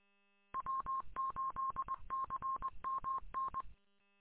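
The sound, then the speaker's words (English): Morse code identification beeps from a radio repeater: a single steady tone keyed in quick dots and dashes over faint radio static. The beeps run for about three seconds and then stop. “Our repeater's back on, or at least there was a Morse code beep.”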